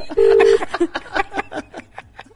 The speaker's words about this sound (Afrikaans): kom ons bel op weer.